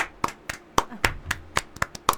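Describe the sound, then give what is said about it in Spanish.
One person claps their hands in applause, producing a steady, evenly spaced series of sharp single claps with brief gaps between them. “Me levanto de la silla y lo aplaudo.”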